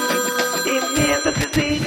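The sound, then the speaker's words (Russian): A telephone rings with a bright, steady electronic tone while thumping musical beats come in midway. “Телефонный звонок.”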